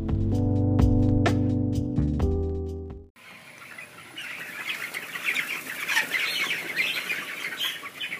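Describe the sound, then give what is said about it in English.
Thousands of broiler chickens in a barn make a dense, continuous chorus of clucks and chirps that swells and rises in loudness. It follows a few seconds of tonal music, with no talking. “That sound you just heard? Yes, that was 22,000 chickens.”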